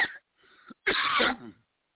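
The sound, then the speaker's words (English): A few coughs or throat-clearing bursts from a person with a slight cough: a short burst, a quieter rasp, then a louder, longer rough cough that trails off, with no talk. “Yeah, I've just got a little cough.”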